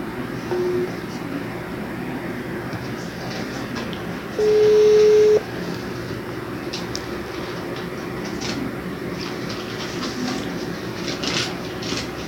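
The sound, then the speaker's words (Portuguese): A video call being redialed: a brief electronic tone, then a longer steady beep of about a second, both over constant background noise. “Liga de novo, pô. Vamos tentar ligar de novo.”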